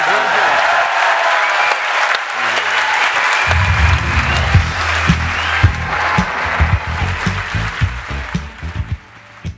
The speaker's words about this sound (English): So I want everybody to put their hands together, a proper Edinburgh welcome for...